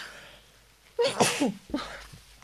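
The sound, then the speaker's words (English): Two sneezes from one person in quick succession, the first louder and drawn out, the second shorter and following a brief pause. “Two sneezes from me.”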